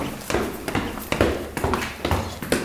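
Footsteps climb or descend the main stone staircase of a museum, a steady series of firm, evenly spaced steps with hard, sharp heel strikes.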